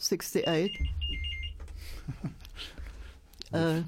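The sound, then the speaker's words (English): A telephone rings in a studio, a high, bright trilling tone that sounds for about a second under a person talking, then stops while the talk carries on. “Phone in the studio. sorry about that.”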